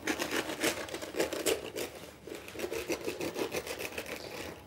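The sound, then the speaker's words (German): Cutting off a cap: a coarse, rasping crunch from repeated short strokes at a steady pace, with a brief pause midway before the cutting continues. “Jetzt schneiden wir nämlich einfach eine Haube ab.”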